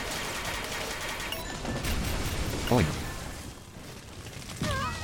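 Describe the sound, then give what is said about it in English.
Video game gunfire rattles through as a dense, steady stream of rapid shots, with a few short tonal sounds cutting in over it. “I'm gonna shoot these guys.”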